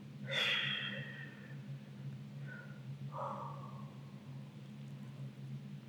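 A breath from a girl: one sharp, breathy exhale snorting through the nose, followed by two softer, shorter puffs, over a steady low hum.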